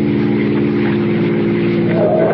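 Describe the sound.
A car engine drones steadily and loudly, a low buzzing hum that rises in pitch near the end as the car accelerates at night on a road near a small bridge.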